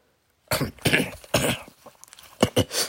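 Throat clearing and coughing from a person with a parched throat: a series of harsh, rasping bursts that start after a brief silence, loud and alone.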